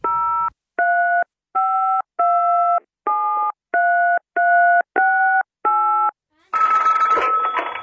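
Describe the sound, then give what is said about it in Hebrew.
Phone tones from a call being placed to someone: nine evenly spaced electronic beeps pulse in a steady on-off rhythm, then a rough, noisy burst of sound takes over at the very end. “אני חייב להתקשר אליו.”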